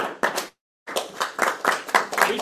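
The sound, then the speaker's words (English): Applause from a small gathering as a man is called up at a thank-you event; scattered hand clapping stops for a brief moment of silence, then resumes in uneven bursts. “Let's give him a round of applause”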